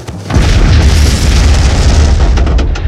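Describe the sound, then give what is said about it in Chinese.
A bundle of grenades explodes inside a tank with a massive, deep boom that erupts after a brief silence, then keeps roaring loudly with a broad rumble that crackles toward the end. “随着一声巨响，敌人的坦克被炸翻。”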